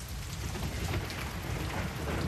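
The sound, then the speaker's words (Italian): Summer rain pours onto pavement during a thunderstorm, a dense, steady hiss of falling water with a low rumble underneath, continuous and even throughout. “Con fragor triste scrosciava la pioggia di estate sul selciato”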